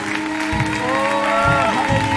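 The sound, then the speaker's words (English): A church audience claps in praise of the Lord during a worship service, a steady, dense patter of hands with a sustained tonal sound running beneath it. “Come on, let's give the Lord a clap.”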